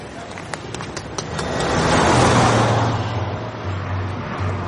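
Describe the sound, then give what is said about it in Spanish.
A car drives past on a road, its engine noise swelling to a broad peak around the middle and then easing off into a low, lingering hum. “Cuando se da la vuelta ve pasar el coche de Macris.”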